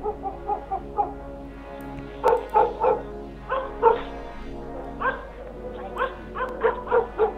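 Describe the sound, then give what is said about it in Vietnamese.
Dogs bark noisily as a storm sets in, with many sharp barks and yips in irregular clusters, some overlapping, over a low steady background. “Đang ngồi trong nhà, tôi bất chợt nghe tiếng chó sủa ầm ĩ.”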